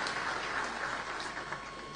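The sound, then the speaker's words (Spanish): A church audience's applause welcomes special guests, priests from Poland and other countries, a moderate, steady clapping that eases slightly toward the end. “los recibimos con un caluroso aplauso”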